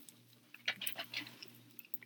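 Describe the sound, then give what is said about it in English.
Biting into and chewing gas station chicken, a quiet string of soft, moist crunches and squishy chews coming in irregular bursts. “I think we should do a little countdown, 3, 2, 1, and take a bite.”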